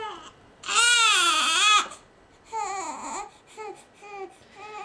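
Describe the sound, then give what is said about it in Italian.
A baby cries, starting with one long, loud, wavering wail, then several shorter, quieter sobbing cries with pauses between them. “Eccolo qua. Chissà perché piange, avrà fame, al pannolino sporco, ha troppo caldo, troppo freddo, ha le colichette, vuole venire in braccio.”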